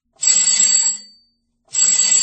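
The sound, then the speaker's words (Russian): A telephone rings in two shrill, bell-like bursts, each about a second long with a brief silence between them, and the second burst is cut off at the end. “Телефонный звонок раздался так неожиданно, что Бигл даже вздрогнул”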